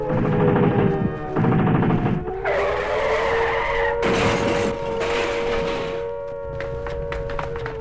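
Gunfire from police who are ordered to open fire on a fleeing rental car, mixed with a roaring engine and screeching tire skids. Loud bursts of shots come in several blocks over a steady engine drone.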